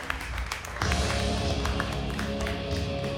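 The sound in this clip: Applause from a comedy club audience at Shark's Comedy Club as a comic comes to the stage, starting abruptly about a second in and then holding as a dense, steady wash of clapping until the end.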